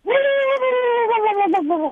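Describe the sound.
A person's voice imitates the call of a sora rail, a marsh bird: one sustained, nasal, whinny-like tone lasting about two seconds, fairly steady in pitch and sagging with a brief wobble near its end.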